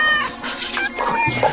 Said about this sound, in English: The cat yanks it free and goes.